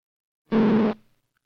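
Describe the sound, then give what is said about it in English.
A row of small marks drawn by hand on optical film produces one short synthetic buzzing tone. It holds a steady low pitch for about half a second and is heard alone, starting abruptly and fading quickly. “A row of small marks would sound like this.”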